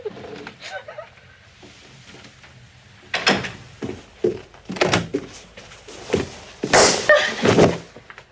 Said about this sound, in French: cette claque qui termine l'extrait, c'est assez insoutenable à l'écoute